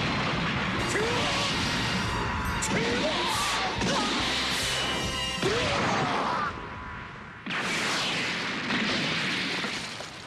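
Punches and heavy blows land during a Dragon Ball Z fight, a run of loud crashing impacts with whooshing swings. The strikes come in dense clusters and then stop abruptly before resuming.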